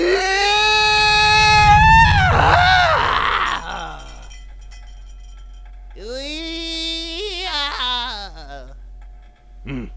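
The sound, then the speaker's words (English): A voice imitates an animal squeal as a courtship call for wooing a female: two drawn-out, wavering squeals separated by a pause, the first louder and longer than the second. “The second, there's the squeal. A good squeal can set the mood. Now repeat after me.”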